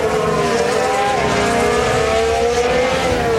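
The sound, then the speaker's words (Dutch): Onboard engine sound from a Formula 1 car racing in a Grand Prix: a continuous loud, high whine over a dense roar, steady throughout with no talk. “Onboordgeluid komt bij Kimi Antonelli vandaan.”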